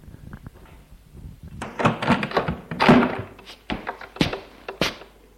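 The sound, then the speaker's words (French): A door is opened with a string of dull clunks and thuds, handle and frame rattling. A few sharper knocks follow near the end, with quiet gaps in between. “Il ouvre la porte.”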